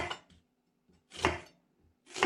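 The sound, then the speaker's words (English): Knife slicing through an onion: a few crisp, scratchy cutting strokes roughly a second apart, the strongest ones loud and short, with quiet gaps between and no voices. “We're moving here to footage actually from the UK, and we see people slicing through an onion.”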